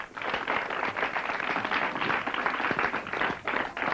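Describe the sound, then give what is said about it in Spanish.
Audience applause greets a guest on a television comedy show in 2023, a dense, steady wash of clapping that stays loud and even for about four seconds. “¡Aplauso!”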